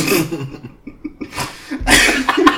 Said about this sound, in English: He's snorting over there?